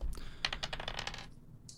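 Dice rolling during a trivia quiz game: many quick, light clicks and clatters in an uneven run, fairly faint, with a short sharper rattle at the end.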